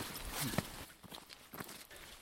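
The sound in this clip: Footsteps of people hiking up a steep path: a few soft, uneven steps, faint and irregular in rhythm.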